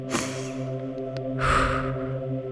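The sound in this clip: A person takes a deep inhale: a short, sharp breath near the start, then a longer rushing intake of air, over a steady tonal drone.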